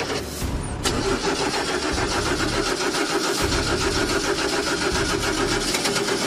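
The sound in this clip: Video-game car engine cranking over but failing to start, a loud churning starter rattle kicking in after a brief lead-in and pulsing steadily without catching, no talk.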